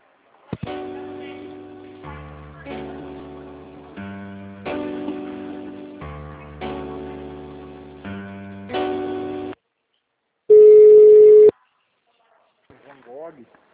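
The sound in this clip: Telephone line tones play while a call is being transferred: a run of sustained, buzzy multi-note tones, then a single steady beep, then a faint brief chirping.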